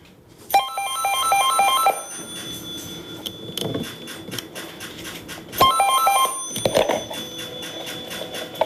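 An old landline telephone bell rings during the ceremonial final call before Finland's nationwide wired phone network shuts down: two bursts of bright, rattling ringing separated by a quieter stretch with faint clatter.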